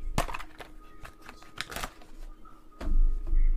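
A stack of football playbook and roster cards is handled and flicked through, with brisk papery snaps and riffles followed by a duller rustle toward the end.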